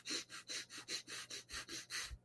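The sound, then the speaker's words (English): Quick, sharp breaths pushed out through the nose in a fast, even series of short huffs, faint and rhythmic with brief gaps between them. “What you do right now is I want you to take 5 quick breaths out of your nose.”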